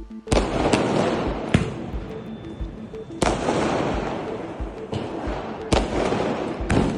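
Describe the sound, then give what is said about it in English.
Diwali fireworks explode in Delhi: several sharp, loud bangs stand out over a continuous crackling rumble of bursts that fills the whole stretch. “how Diwali fireworks sent pollution sky high in Delhi.”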